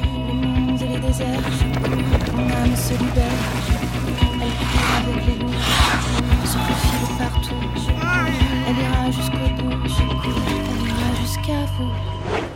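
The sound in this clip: A horse's hooves clip-clop in a steady, quick rhythm of many sharp beats, running throughout beneath sustained music.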